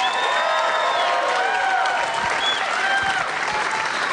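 Loud, sustained applause and cheering from a live audience at the Bumbershoot festival greeting a co-host, a steady wash of clapping with high whoops and whistles rising above it.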